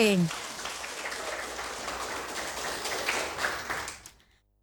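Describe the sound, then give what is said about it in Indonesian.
Applause from an audience cheering a team at a quiz contest: dense, steady clapping with a rain-like patter that holds evenly for about four seconds, then fades out. “Ya, tepuk semangat untuk regu D.”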